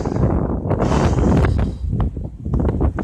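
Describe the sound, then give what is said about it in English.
Wind blowing across a microphone outdoors, a loud, continuous low rumble and buffeting that surges and eases in gusts throughout. “Excuse all the wind, but why should I excuse something so natural, something so pure?”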